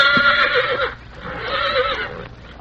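A colt with an injured, nearly healed leg whinnies in two loud, shrill harmonic neighs with a short pause between them. No other sounds are heard.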